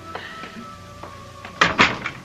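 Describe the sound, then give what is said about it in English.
A door being opened: a few faint taps, then a louder burst of clunks and thuds from the latch and door near the end. “Let me get the door.”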